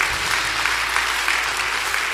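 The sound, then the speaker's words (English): A church audience applauds to welcome new people into the faith, a steady, dense wash of clapping that holds even throughout. “Can we just put our hands together and welcome people into God's family?”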